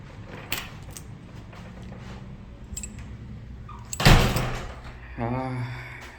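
An old lock opening on a door in a building about four hundred years old: a faint click, then a loud metallic clunk and a longer rattling scrape.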